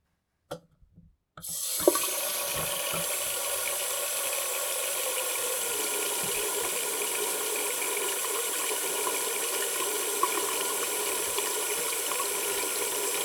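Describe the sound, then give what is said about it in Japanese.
Running water flows steadily while hair is shampooed at a salon. After a couple of faint taps, it becomes an even, continuous hiss that lasts to the end. “まずはシャンプーいたしますね。”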